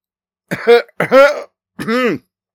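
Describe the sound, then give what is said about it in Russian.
An officer coughs three times, giving harsh, throaty, voiced bursts separated by brief pauses. No talk is heard around them. “Тут же закашлялся офицер и что-то произнес на своем языке.”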